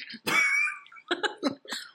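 Coughing after nearly choking while drinking: one long, harsh cough, then a few shorter, sharp coughs with a throaty, clearing edge.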